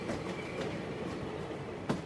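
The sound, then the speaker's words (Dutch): Steady rumble of a train travelling by rail on a morning ride to The Hague, heard from inside the train: a continuous broad roar with faint clicks and one sharper knock near the end, no voices. “2 juni 2021, om 9 uur in de ochtend, zit ik in de trein naar Den Haag.”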